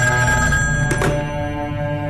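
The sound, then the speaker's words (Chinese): A telephone rings with a steady, continuous bell-like tone lasting the whole time, broken briefly by a short burst of noise partway through, with no voices. “跟踪春三的特务再次给高斌打来电话汇报。”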